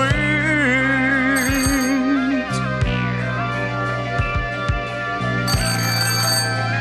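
A telephone rings with an electronic, melodic ringtone made of sustained, wavering tones and repeated chime-like notes. It plays alone, with no voices.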